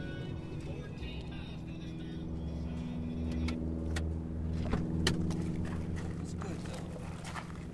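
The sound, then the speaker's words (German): A car drives nonstop through a heavy desert storm over mud dusted with sand. Its engine makes a steady, low droning hum, and people talk throughout over the engine. “Sie brausen jetzt ohne anzuhalten von einer Wildnis in die andere, durch einen heftigen Wüstensturm, der den Schlamm mit Staub überdeckt, bis das Auto einfach anhalten und verschnaufen will.”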